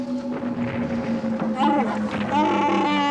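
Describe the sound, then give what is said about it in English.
A spaceship drops out of hyperspace into a meteor shower from an asteroid collision: a steady droning engine hum with rough, rumbling bursts. A voice seems to speak briefly over it. “We come out of hyperspace into a meteor shower, some kind of asteroid collision.”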